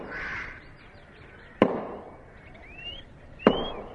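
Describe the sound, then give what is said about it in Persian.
A village man swings a very large axe into dry trees: two sharp, isolated chopping impacts about two seconds apart, with faint bird calls between them. “این صدای ضربه های تبر مرد روستایی بود. اون داشت با یه تبر خیلی خیلی بزرگ درختای خشک رو میکند.”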